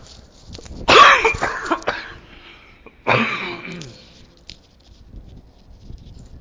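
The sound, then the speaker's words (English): A person with a post-nasal drip coughs in two separate harsh bursts a couple of seconds apart, each trailing off into smaller rasps, with quiet between them. “sorry, I'm gonna cough.”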